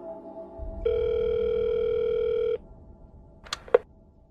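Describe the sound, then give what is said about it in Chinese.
A phone call being dialed in a Cantonese audio drama: a single steady, buzzing tone holds for nearly two seconds over low background noise, followed by two short clicks. “喺行入去嗰陣呢，我同时间亦都拨通咗个电话。”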